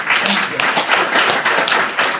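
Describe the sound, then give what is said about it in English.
Audience applause at an event at CUNY School of Law: loud, dense, even clapping from many hands that holds steady for the whole two seconds. “Can we just give everyone a round of applause?”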